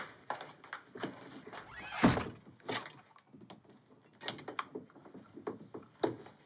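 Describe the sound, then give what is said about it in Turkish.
A door fitted with an improvised lock, a fork on a string that drops into a groove in the side frame, is tried and stays shut. Many light knocks and rattles, one heavier thud near the middle, no talk. “Çatal yerine oturmadığı için açamadı kapıyı.”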